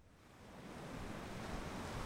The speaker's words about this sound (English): Only a few feet away from the Uducton archaeological dig site, waves from a storm are crashing into the shore